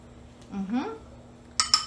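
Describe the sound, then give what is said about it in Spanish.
A spoon scrapes the leftover avocado from its peel, giving a couple of short, bright metallic clinks near the end, just after a brief spoken word. “Este aguacate lo sacamos, ya lo tenía picado, vieron la técnica, raspo con mi misma cuchara lo que queda ahí en la cascarita y mezclo generosamente”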